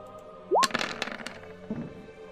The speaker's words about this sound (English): So I mean, I swing, I just crush that guy, and just continue the swing all the way around, and unfortunately, the other guy just backs out of the way just in the nick of time.